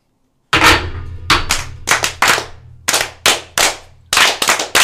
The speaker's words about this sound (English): We're also going to do a Masonic toast to them as well. So brethren, right hand arms. Arms. Ready. Ready. Ready. Aim. Aim. Fire. Good fire. Fire all. Together, brothers.